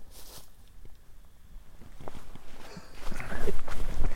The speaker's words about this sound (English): Sounds like somebody's walking behind me.